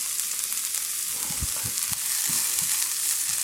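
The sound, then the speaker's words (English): Garlic sizzles in a hot oiled pan, a steady bright crackling hiss that runs throughout, with a few soft low knocks partway through as it is stirred. “So I give the garlic. Oh, I love the smell of garlic when it hits a hot oiled pan.”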